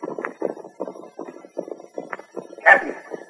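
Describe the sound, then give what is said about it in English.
Hooves of two horses galloping off in a rush make a quick, regular drumming of beats throughout, with one brief louder burst near the end. “The way those two hombres galloped off in such a rush”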